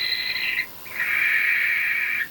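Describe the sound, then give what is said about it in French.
A barn owl calling at night: two drawn-out, harsh, hissing screeches, the first short and the second about a second and a half long, alone against a quiet background. “On dirait des ululements. Une bestiole qui ulule la nuit dans les airs sans que je puisse entendre ses battements d'ailes, c'est forcément une chouette effraie.”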